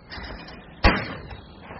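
A single shotgun blast fired at a clay pigeon target during a morning of clay shooting: one sharp, loud report with a short fading tail, rising out of low, steady background noise.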